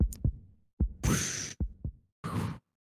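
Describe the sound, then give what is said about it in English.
Heartbeat thumps, some in lub-dub pairs, alternating with short bursts of rushing noise. “Your heart begins to beat so, it's so loud along with this warbling.”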